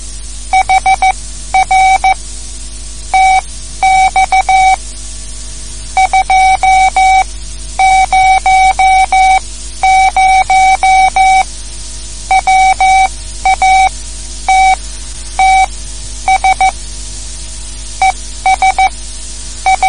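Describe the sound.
Amateur radio Morse code from a 200-watt transmitter with a Ground Plane antenna: a steady mid-pitched tone keyed in rapid dots and dashes, in bursts with short gaps, over a constant low hum and hiss.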